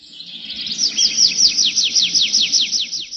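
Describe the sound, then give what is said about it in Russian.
Thrush singing a warbling trill, a rapid run of many repeated high, downward-sliding notes that grows slightly louder then evens out, heard clearly alone over a faint low background. “И в эту минуту с другой стороны поляны зазвучала переливчатая трель дрозда.”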